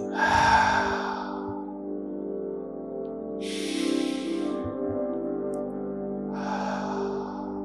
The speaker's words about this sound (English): Take a deep breath in through the nose, filling up the belly and out the mouth.